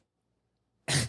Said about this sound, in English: who just sneezed in the middle of our show